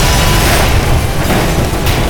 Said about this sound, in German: Ein weiterer Reifen platzte und dann geschah es. Funken sprühten durch die Luft, der Lastwagen neigte sich zur Seite und krachte donnernd auf die Straße.